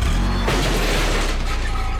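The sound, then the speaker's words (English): A car backing into a green-waste garbage can gives a loud, dense crunch and clatter. A low rumble leads into a sharp impact near the middle, then rattling noise that carries on to the end. “That's the sound of a car backing into a garbage can.”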